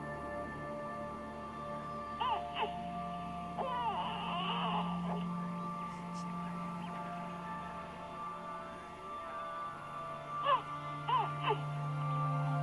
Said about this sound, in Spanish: Hay un bebé contigo, ¿sí?